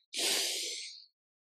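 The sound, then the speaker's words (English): A single deep breath drawn in: one steady, airy rush of about a second that swells quickly and fades at the end, heard alone with no talk. “Take another deep breath in and exhale.”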